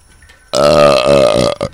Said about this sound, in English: We got live burps on the mic.